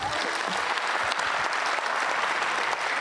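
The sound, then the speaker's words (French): Applause from a studio audience giving an ovation during an evening talk show, a dense, steady wash of clapping that stays loud and even for the whole clip. “Je vous le disais tantôt, nous avons un charmant public ce soir à qui je vais demander d'ovationner très fort.”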